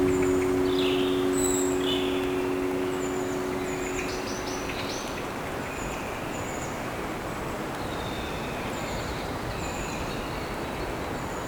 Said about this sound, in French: les oiseaux gazouillent.